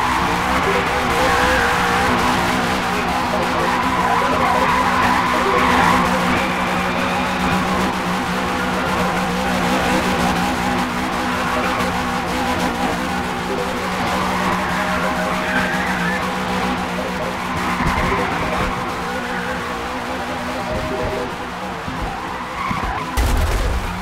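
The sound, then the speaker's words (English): A race car rolls slowly through the rain toward its pit box, giving a continuous engine drone under a steady hiss that dips briefly near the end. “Your car moves slowly through the rain towards your pit box. Your pit crew changes your tires with total efficiency.”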